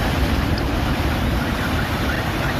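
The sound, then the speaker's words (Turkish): Stormy sea waves at a beach in Yumurtalık after a downpour and storm, heard as a steady, loud roar of surf mixed with gusty wind noise, with no distinct individual breakers standing out. “Bazı gençler dev dalgaların olduğu denizde yasaklanmasına rağmen yüzmeye devam etti.”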